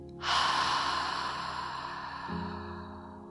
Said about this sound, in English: Inhale. And exhale.